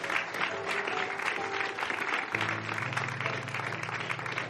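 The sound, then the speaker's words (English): Warm audience applause welcoming a speaker at a church gathering: continuous clapping at an even level, over sustained musical tones that shift to a lower note midway. “So let's put our hands together and give him a nice warm welcome as he comes.”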